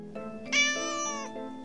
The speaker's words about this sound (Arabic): فلما تحركت الشمس لحقتها وهي تموء